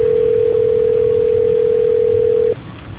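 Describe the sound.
A steady telephone line tone plays while a phone call is transferred, a single unbroken pitched hum that holds level, then cuts off abruptly near the end, leaving only faint line hiss.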